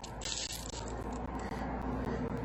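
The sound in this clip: A small piece of tin foil crinkles and rustles as it is handled, a loud, dense crackle that runs continuously with a few brief gaps.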